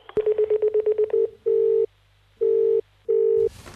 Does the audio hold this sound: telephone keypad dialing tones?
yes